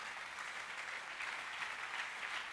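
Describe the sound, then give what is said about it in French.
Congregation applauding in church at a worship service: dense, steady clapping that holds an even, fairly loud level from start to finish, with no voices standing out. “On acclame bien le Seigneur.”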